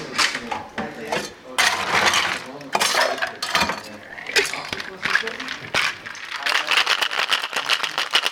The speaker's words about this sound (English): We're shaking up that tree. Cocktail shaking.